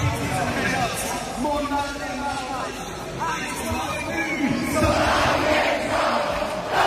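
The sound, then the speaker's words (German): Fans in a tent at Zurich's Hallenstadion sing a song together. A loud mass of voices carries a melody over steady crowd noise and swells near the end. “Schon eindrücklich, wenn das ganze Hallenstadion so einen Song singt. Ja, und es ist eben fast so laut, wenn es da hinten im Fanzelt damit das Lied auch singt.”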